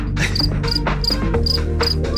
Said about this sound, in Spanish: te vamos a regalar unos grillos